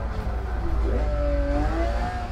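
Car engine revving on a downshift in a racing video game on the Nürburgring, played with no driving assists; a sustained engine drone with a whining note that climbs in pitch, steady and loud throughout.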